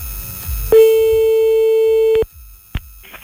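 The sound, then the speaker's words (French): Telephone ringback tone of an outgoing call: a single long, steady electronic beep lasting about a second and a half, followed after a pause by a short blip. “on fait l'appel maintenant grâce au numéro que vous nous avez envoyé.”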